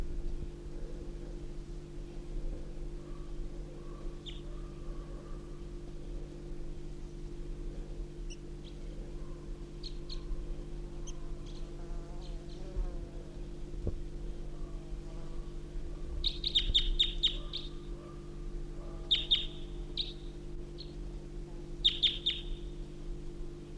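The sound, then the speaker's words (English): Wild birds sing, among them a male crossbill: high, thin chirps come singly and scattered at first, then in tighter repeated bursts, above a steady low hum. “I hear wild birds to the east singing. I hear a male song of a crossbill.”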